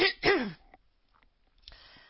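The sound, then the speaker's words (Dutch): A quick throat-clearing cough comes in two rough, close bursts, followed by near silence and a faint rustle. “Nou, ik moet even hoesten.”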